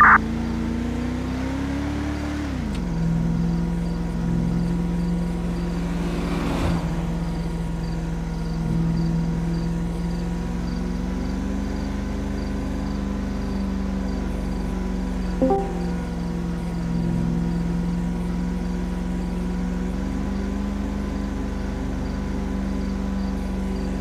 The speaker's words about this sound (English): I don't even know why I'm driving this slow.